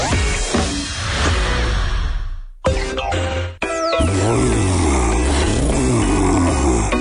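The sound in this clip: A muscle car engine roars in a radio ad for an American muscle car exhibition. The roar is loud and dense, cuts out briefly twice, then returns as revving with a wavering, rising and falling pitch.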